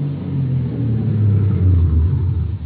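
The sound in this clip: A car drives along, its engine a low, steady rumble that swells slightly midway, with no voices over it.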